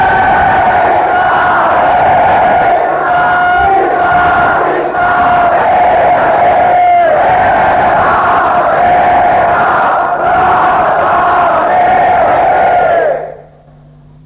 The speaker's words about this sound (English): But Prabhupada wanted the whole world to hear the holy name from Mayapur. So please chant much, much louder.